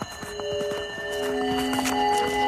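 Horse hooves clip-clopping as a rider crosses the desert between oases: a steady run of quick, regular hoof clicks beneath sustained steady tones, growing slightly louder toward the end.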